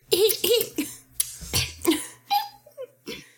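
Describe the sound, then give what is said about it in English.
A voice imitating a weasel clearing its throat: a quick, uneven series of many short, raspy, coughing and squeaky throat-clearing bursts at moderate loudness. No words are spoken. “It's gonna sound like a weasel is clearing its throat.”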